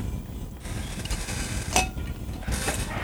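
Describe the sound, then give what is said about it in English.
A glass clinks briefly as someone gets a drink, amid faint creaking, handling noises and a low background rumble. The clink is a single short, bright ring near the middle. “Let me get a drink for this one. My throat's getting a little dry.”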